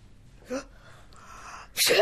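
A single sharp sneeze bursts out near the end, loud against a mostly quiet stretch that holds only a faint, brief sound earlier on.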